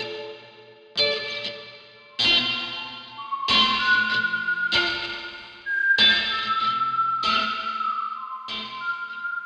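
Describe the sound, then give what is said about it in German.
Nylon-string acoustic guitar recorded on an iPhone and pushed through heavy effects. Seven or so evenly spaced chord strikes each ring out into a smeared, echoing, distorted wash with a sustained shimmering tone between hits. “So eine Nylon-Saiten-Akustikgitarre, die ich mit dem iPhone aufgenommen habe und einfach durch jegliches Effekt gejagt habe, dass es dann so klingt.”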